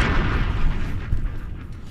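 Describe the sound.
A bomb explosion sound effect: a deep, rumbling boom that stays loud and heavy with low-end roar for the whole short clip, with no voices over it.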